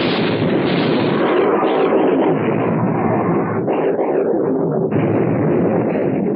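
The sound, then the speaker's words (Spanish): A warship's turret guns fire in a naval battle, the blasts merging into a loud, continuous, dense roar that holds steady throughout without distinct separate shots. “¡Abran fuego! ¡Fuego! ¡Fuego!”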